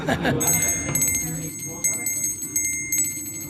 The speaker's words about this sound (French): Vous avez une petite clochette, c'est pourquoi? Pour annoncer le prochain round.